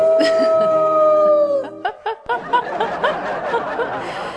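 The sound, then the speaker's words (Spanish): A dog gives a long, sustained howl that holds steady and then slides down in pitch, followed by choppy laughter and chattering voices. “perro.”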